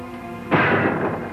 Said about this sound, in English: That gun again. Well, whoever it is won't be shooting out there after tonight.